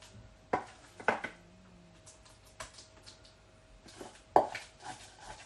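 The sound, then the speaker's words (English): A mid-sized ceramic baking dish is taken out, giving a few sharp, quiet clinks and knocks separated by short pauses. “I'm just getting one of the mid-sized dishes out that I've got.”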